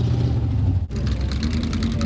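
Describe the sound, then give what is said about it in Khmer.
Classic cars race at a county fair in Adams County, Pennsylvania. A loud, sustained roar of engines dips briefly midway, then returns as a rougher, revving drone. “នេះជាការប្រណាំងរថយន្តបុរាណនៅកន្លែងតាំងពីពណ៌មួយនៃស្រុក Adams រដ្ឋ Pennsylvania”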